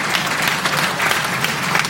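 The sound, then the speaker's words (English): Audience applause at a community gathering, a dense, steady clatter of many hands clapping at an even level from start to finish. “give them a round of applause, because this is a big thing right here.”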